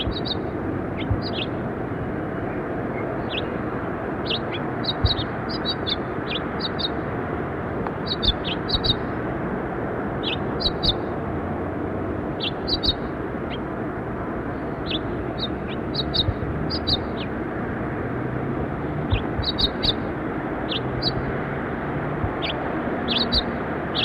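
Finches calling on a ledge, many short, high, thin chirps in scattered clusters throughout, set over a steady, broad low rumble of background noise. No voices are heard.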